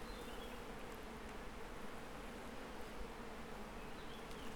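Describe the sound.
A fly buzzes in a steady, fairly faint drone that holds at an even level for the whole stretch, with no talk over it.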